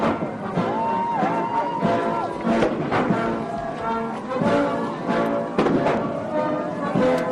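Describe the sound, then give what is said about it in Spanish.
Several booming blasts from a 21-gun artillery salute at a military honours farewell ring out over sustained orchestral music as a presidential plane departs. The sharp reports punctuate the melody at irregular intervals. “con el sonido de 21 salvas de artillería, despegaba el Air Force One hasta Florida”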